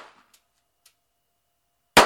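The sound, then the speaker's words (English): A single loud, sharp revolver shot fired at a target with a self-defense handgun, coming at the very end after near silence broken only by a couple of faint clicks. “And started squeezing off shots.”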